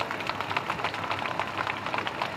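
Old car engine, started by pulling an ignition lever on the steering wheel, runs with a rapid, even chugging pulse. The steady mechanical knocking holds at a constant pace throughout, with no voices over it.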